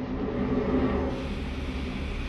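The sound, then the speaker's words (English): A train running on the Roanoke to Williamson, West Virginia line in June 1958 makes a steady, low rolling rumble. It is a continuous drone at moderate level with no distinct separate events. “In these recordings, it's an amazing thing to be the listener here, because you really feel like you're in that train. You become part of that train.”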